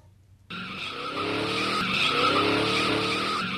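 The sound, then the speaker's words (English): A car drives fast on the way back to a Beverly Hills mansion, its engine roar cutting in suddenly after a brief quiet and holding loud with a sustained whining tone. “Oh, Blanche, must you always drive so fast?”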